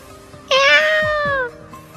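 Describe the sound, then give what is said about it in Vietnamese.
A struggling black cat lets out a single loud, drawn-out meow lasting about a second, rich in harmonics, over a quiet background. “Mèo đen bị Bạch Ngọc Đường bắt được, vùng vẫy mấy cái kêu lên. Con mèo này khỏe thật.”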